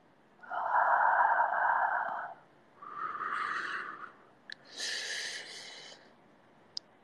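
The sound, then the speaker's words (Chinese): Three soft, breathy exhalations blown close into the ear, each lasting about a second or more and separated by short pauses, with faint clicks near the end. “像这样在你耳边呼气”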